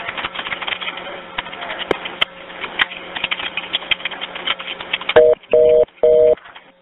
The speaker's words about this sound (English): So you can hear that the line eventually goes dead.